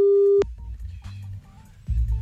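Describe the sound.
A steady, single-pitched telephone line tone sounds for under half a second as a call is placed back, then cuts off abruptly into a low, faint line hum.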